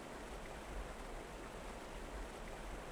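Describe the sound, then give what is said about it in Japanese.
A babbling stream makes a faint, steady rushing and burbling flow that continues evenly throughout, with no voices. “せせらぎが気持ちいい。”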